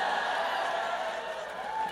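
A live audience answers a show-of-noise poll with a dense, steady wash of cheering and shouting that holds for two seconds.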